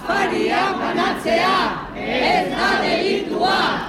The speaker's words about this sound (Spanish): Este es el sonido de las protestas que provocaba ayer la decisión del Ayuntamiento de San Sebastián de prohibir las llamadas cenas solidarias que un grupo de ciudadanos ofrecía a personas sin hogar en distintos puntos de la ciudad.